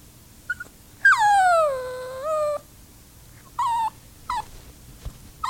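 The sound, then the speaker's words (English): A happy dog whimpering: one long drawn-out whine that slides down in pitch and then levels off, followed by a few short, higher whimpers with brief gaps between them. “That's my dog, Ollie. When he's happy.”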